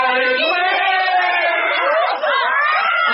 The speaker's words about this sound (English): I'll go in while they're shouting.